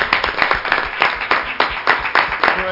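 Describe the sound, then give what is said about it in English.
A church audience claps hands in praise during a worship service, producing dense, steady applause with many rapid, overlapping claps throughout. “Let's give him a hand clap of praise.”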